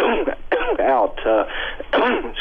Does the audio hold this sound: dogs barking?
no